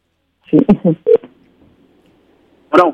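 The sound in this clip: Telephone tones sound as a call is placed: a quick run of short, loud tone bursts, then a pause before one more tone.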